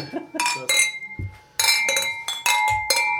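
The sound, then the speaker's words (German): A glass sugar shaker being knocked on a table, setting off a series of bright, ringing glass clinks and chimes in irregular bursts, with a few duller knocks between them. “Ja, ich stoße den Zuckerstreuer an.”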